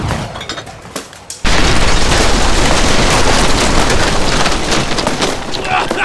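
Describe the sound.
A rocket explosion erupts as a sudden loud blast after a quieter stretch with a few small knocks. It then carries on as a sustained, dense roar of crashing debris until the end.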